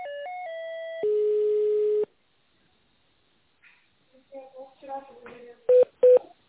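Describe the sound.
Telephone tones sound as a call is transferred to a purchasing department. A few stepped electronic tones lead into a longer, lower steady tone. After a pause come faint muffled sounds, then two short, sharp beeps.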